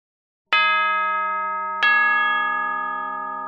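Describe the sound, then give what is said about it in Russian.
A bell rings to mark the end of a school lesson: two clear metallic strikes, each leaving a bright, sustained ringing tone that decays slowly. “Прогремел колокол, означающий конец урока.”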